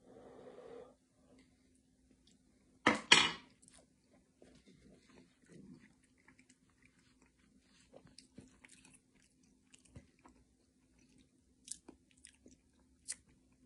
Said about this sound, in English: The pasta is real chewy, which is nice. Let me taste it one more time.